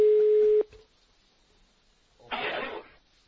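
A telephone line tone sounds on an unanswered call: one steady, mid-pitched tone cuts off abruptly. Near-silence follows, then a short burst of rough noise.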